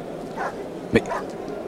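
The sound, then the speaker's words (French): A large dog that has rushed through a crowd gives a single short, sharp bark, a brief loud burst over a steady murmur with faint voices in the background. “Mais que vois-je? Un chien? Un énorme chien vient de se précipiter à travers la foule.”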